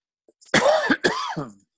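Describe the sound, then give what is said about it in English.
Two harsh coughs come one after another in quick succession, each a loud, rough burst lasting under half a second, with no talk around them. “Excuse my coughing there.”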